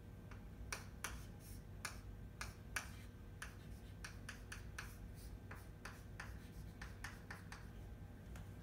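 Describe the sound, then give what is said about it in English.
A pen draws out a guanosine chemical structure in many short, crisp ticks and scratchy strokes, a steady but irregular run of faint writing sounds with no talk. “And then from there, we have this, which is another component. And we're drawing guanosine.”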